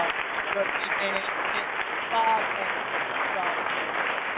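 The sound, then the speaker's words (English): Round of applause: a dense, continuous wash of many hands clapping at an even level throughout, with no clear pause or swell. “I want to send a congratulations and a round of applause.”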